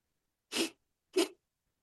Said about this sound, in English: it's called the breath of fire. So we're doing the backstroke with the breath of fire.